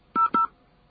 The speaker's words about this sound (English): If this is correct, dial your password and then push enter or pound.